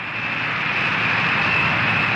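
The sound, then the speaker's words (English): President Nixon's jet, the Spirit of 76, taxiing on the runway at Peking airport. Its engines give a steady, loud roar with a thin, high whine on top. “Christened the Spirit of 76, taxis to a stop on the runway of the Peking airport.”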